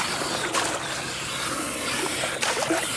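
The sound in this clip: Water trickles along a conveyor, through a spiral and on to a wheel, giving a steady wash of running water with a couple of brief splashy bursts.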